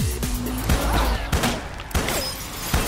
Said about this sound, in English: Shoot at him! Those were warning shots, honey!